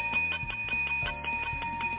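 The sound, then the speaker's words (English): Church bells ring on a Monday morning, many quick regular strikes over sustained, overlapping ringing tones. “There's those church bells ringing.”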